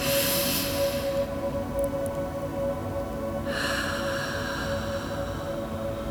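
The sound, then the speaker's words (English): A deep breath in and an exhale through the mouth during a guided relaxation. A soft, breathy rush is followed by a pause, then a longer, airy exhale, all fairly faint over a steady low tone. “Let's take a moment now to take a deep breath. Hold it at the top. Exhale through your mouth. One more to really get that oxygen flowing.”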